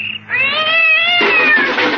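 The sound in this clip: A cat yowls in a single drawn-out, nasal wail that holds a steady high pitch and grows harsher toward the end, loud and alone.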